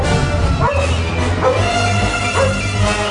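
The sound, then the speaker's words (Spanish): A house dog barks a few times, in sharp, loud yelps over a dense, continuous background rumble. “el perro de la casa, se puso a ladrar.”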